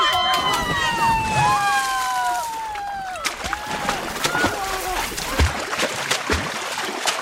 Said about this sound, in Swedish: Som uppvärmning kom vi nu att få höra hur det lät under själva doppet förra året. Som vanligt lite lätt kaotiskt, misstänker jag.